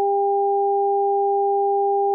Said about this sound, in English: Now, a 400 Hz sine wave plus an 800 Hz sine wave.